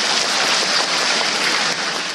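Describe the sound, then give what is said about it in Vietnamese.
An audience applauds at a Vietnamese history quiz: a continuous wash of many hands clapping, loud and even from start to end, with no distinct voices. “Quá giỏi, cho một tràng pháo tay nữa.”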